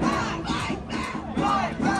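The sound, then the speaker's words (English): Protesters chant outside the Freeman Coliseum before a Trump rally, a crowd repeating a short chant in steady, rhythmic pulses. “That's the sound of protesters chanting and holding banners in front of the Freeman Coliseum ahead of the president's speech.”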